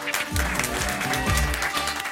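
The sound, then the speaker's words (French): Audience applause welcoming a guest on a talk show, brisk, dense clapping over a low, tonal musical backing that runs beneath it at a steady level. “Applaudissements pour la thérapeutique et précieuse Caroline Cruz.”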